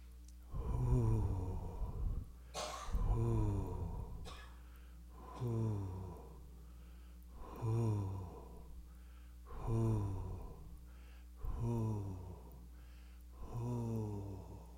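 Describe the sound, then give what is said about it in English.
Rhythmic breathing during a breathing exercise, seven faint, evenly spaced breaths roughly two seconds apart, each a short airy burst with a slight voiced, falling tone. “Inhale.”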